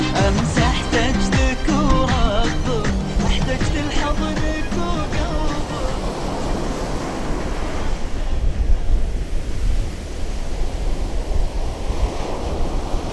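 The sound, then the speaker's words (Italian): Boats racing across the sea, heard as a loud, buffeting roar of wind and rushing waves that takes over as music fades out during the first half. “Lungo la strada un'altra barca affianca quella di Khalid. Saluti e grida come due amici che si incontrano in auto. Un sorriso d'intesa, uno scambio di gesti e comincia una folle gara di velocità.”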